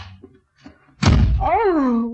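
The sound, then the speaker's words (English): A door slammed shut lands as one loud, heavy thud that cuts in abruptly midway. Faint speech comes before it, and a voice rises right after the slam. “must you slam the door, darling?”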